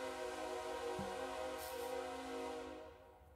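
A train passes with a steady, fairly faint droning rumble carrying tonal overtones, holding level and then fading away toward the end.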